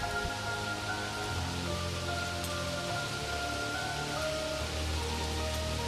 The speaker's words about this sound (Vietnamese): chụp cái nón của áo khoác lên đầu, rồi đi bộ dưới cơn mưa